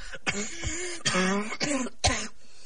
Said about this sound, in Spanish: La sequedad del ambiente hace que la garganta comience a resecarse y las toses vuelven a hacer acto de presencia.